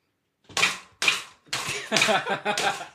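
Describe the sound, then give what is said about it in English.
Slaps swat at a fly behind window blinds: a run of five sharp, rattling smacks, the first two spaced apart and the last three coming in quicker succession. “Kill that fly. There's a fly up there. How am I going to kill it? Smash it when it gets bent behind the blinds.”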